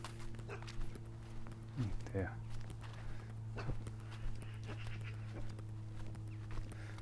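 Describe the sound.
A pack of dogs passes someone walking outdoors, giving faint whines and yelps with a few scuffling footsteps over a low, steady hum.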